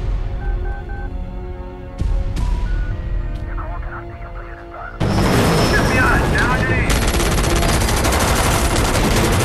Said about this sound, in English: Chopper full of agents guns down the sniper.